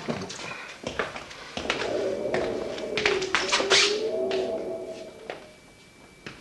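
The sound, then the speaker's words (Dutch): A loose cellar window rattles in the wind: irregular taps and knocks come in scattered bursts over a faint, wavering tonal whine, with no voices. “Het kelderraam wijkt nogal en als het een beetje waait of toch, dan hoor je dit al.”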